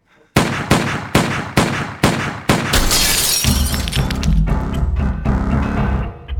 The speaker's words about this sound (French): Elle me vide son chargeur dessus. Elle tire 6 balles, mais pas une seule dans la tête.